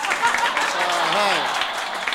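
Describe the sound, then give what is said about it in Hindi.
A short burst of audience clapping, a steady patter under a man's speaking voice. “लो ताली थोड़े जिहा वधाउंदे जाणा भी दोस्तों”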